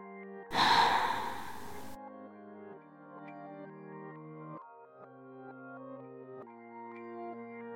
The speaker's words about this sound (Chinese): 打开，缩小，柔柔软软的呼吸，